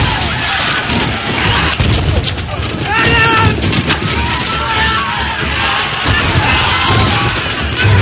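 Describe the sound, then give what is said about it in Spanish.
Hand grenades roll and explode among fighters during combat on the deck of a sailing warship in a naval battle. A dense, loud din of blasts and crashes runs throughout, mixed with shouting voices. “Lanzan bombas de mano que ruedan y estallan entre los combatientes.”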